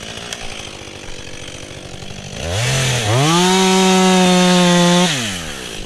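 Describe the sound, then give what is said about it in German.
Chainsaws cut as trees are felled in a forest in the Eibenstock forestry district. A quieter rough sawing noise gives way to an engine that revs up sharply, holds a loud, buzzing high pitch for a couple of seconds, then drops back down. “Im Wald bei Konrads Wiese ist das laute Geräusch von Motorsägen zu hören.”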